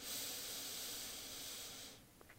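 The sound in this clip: A deep breath during a breathing exercise, a steady airy hiss lasting about two seconds that then stops abruptly, leaving near silence.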